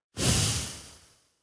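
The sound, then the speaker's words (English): A single long exhale through the nose after a held breath in a breathing exercise: a soft, breathy rush that starts strongly, then thins and fades away over about a second. “Hold the breath. And exhale, nose.”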